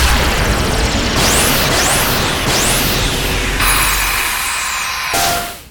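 Sci-fi beam weapons fire from a space fleet locking onto targets: a few swooping downward zaps sweep over a loud, roaring rush, then the sound settles into a bright hiss before a final burst cuts it off.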